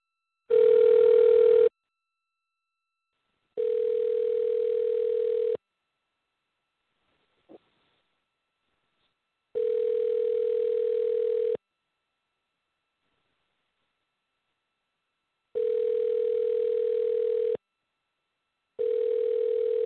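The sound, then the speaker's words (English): Telephone ringback tone heard while placing a call on an office phone system: a steady electronic tone comes in two-second bursts with silent gaps between. There are five bursts, the last cut short, and a faint click falls in one gap. “Try to master this phone system. Give him a call real quick.”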